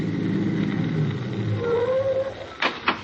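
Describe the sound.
A car's low engine rumble as it drives into a park in a radio drama, steady throughout and ending with two short, sharp sounds.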